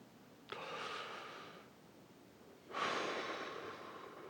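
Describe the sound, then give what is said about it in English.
Deep breathing: two long breaths, the first softer and the second louder and rushing, with no talk. “Deep breaths.”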